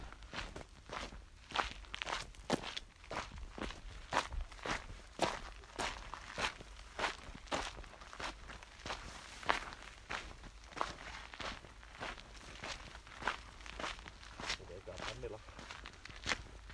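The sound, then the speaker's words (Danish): Footsteps walk along a small path in a steady, even rhythm, with many crisp, light treads continuing at a regular pace from start to finish. “gå på den lille sti her, hvor vi går.”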